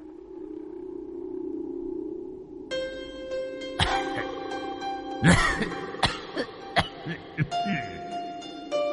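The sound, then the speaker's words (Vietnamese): An old man coughing in the distance in a village: several harsh, separate coughs at uneven intervals over a low steady hum and sustained tones. “Ở phía xa xa, vẫn còn vọng lại tiếng ho khổ khổ của lão nhân.”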